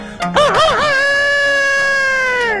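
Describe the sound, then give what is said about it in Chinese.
A rooster crowing, one of two chickens kept by a household: a single loud crow that opens with a few quick wavering notes, then holds a long, sustained tone that dips slightly at the end. “有的个别家哎，还养活了2只鸡，这2只鸡也不搅闷，天天打鸣。”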